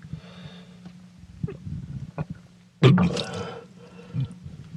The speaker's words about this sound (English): And there goes my dinner. Back into the sink.